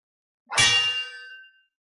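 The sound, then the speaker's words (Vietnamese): A single metallic clang of a saber blade rings out alone: a sharp, loud strike followed by a bright, shimmering tone that fades over about a second. “Một tiếng đao ngâm vang vọng khắp thiên địa, Diệp Phàm”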